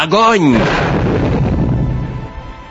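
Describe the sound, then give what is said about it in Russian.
Cannon fire from a ship's gun deck: a brief shouted voice leads into a single heavy boom that rumbles and slowly fades over about two seconds. “Огонь!» Увы, наши канониры меня разочаровали. Да и далековато было, чтобы взять верный прицел с первого же выстрела. Почти все наши ядра перелетели Венесуэлу.”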